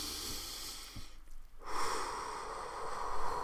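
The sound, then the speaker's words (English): A deep breath taken alone: a soft airy rush, a brief quiet lull, then a longer and stronger steady flow of air. “let's just take a deep breath”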